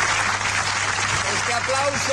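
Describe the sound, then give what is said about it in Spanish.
Audience applause at the Festival de Mérida after the closing performance of Timón de Atenas: an even, continuous wash of clapping with voices faintly beneath it. “Este aplauso lo hacemos extensivo, por supuesto, a la selección, que parece que ha ganado.”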